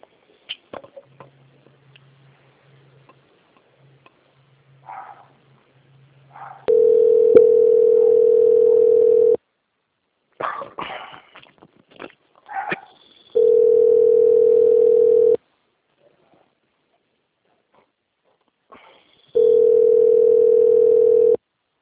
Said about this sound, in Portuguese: Eu já devo pedir mais alguns minutos na linha que eu vou transferir, tá, para a nossa auditoria de qualidade. Não desligue, por favor.